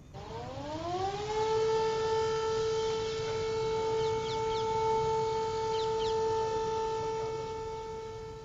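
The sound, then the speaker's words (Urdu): A civil defense siren sounds in Muzaffarabad, Pakistan, at a remembrance marking ten years since a severe earthquake. Its pitch climbs over the first second, then holds a loud, steady, harmonic-rich tone throughout. “آج صبح 8:52 پر جب یہ siren بج رہا تھا تو 1 minute کی خاموشی اختیار کی گئی”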